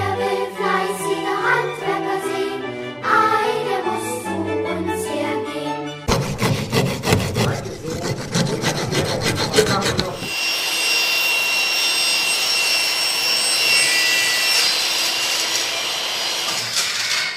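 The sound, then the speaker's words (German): Craftsmen at work on wood at an open-air forest stage, after a short stretch of music. Dense rasping sawing strokes last about four seconds, then give way to a steady, loud whining drone of a power tool that runs to the end. “heute können wir nicht nur fleißige Handwerker sehen, sondern auch vor allen Dingen fleißige Handwerker hören.”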